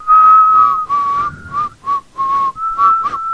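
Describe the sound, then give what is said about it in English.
A person whistling loudly, alone: a string of sustained, clear notes near one pitch, broken by short gaps into several phrases. “We got to it like this. We whistled.”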